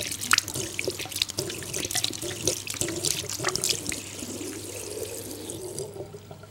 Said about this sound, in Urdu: اس طرح سے سیدھے ہاتھ کو دھویا جائے، پھر الٹے ہاتھ کو دھویا جائے